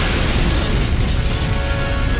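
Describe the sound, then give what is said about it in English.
A heavy, sustained explosive roar from the destruction of the Starkiller base cooling device in Star Wars, a dense rumbling wash of noise that stays loud and even throughout without a distinct onset. “They felt the planet rock beneath their feet as Poe fired on the weakened cooling device, destroying it once and for all.”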